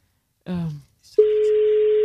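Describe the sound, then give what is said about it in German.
A steady, single-pitched telephone tone starts abruptly during a call being dialed and holds unbroken to the end, just after a brief spoken sound. “dass wir ein Telefon nutzen mit Telefonnummer. Und es wird schon gewählt.”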